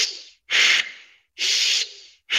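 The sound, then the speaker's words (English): Rapid breathing in and out through the nose, with loud airy hissing breaths of about a second each following one another in a steady rhythm, with short gaps between them. “So it's in through the nose for 1 second, out through the nose for 1 second, 30 times.”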